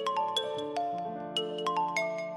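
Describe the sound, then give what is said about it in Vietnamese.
A telephone ringtone plays as a melodic run of bright, chiming notes with sharp attacks, repeating in a steady pattern. It sounds alone, with no talk over it. “Đang trò chuyện thì chuông điện thoại kêu.”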